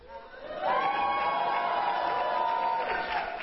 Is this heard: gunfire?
no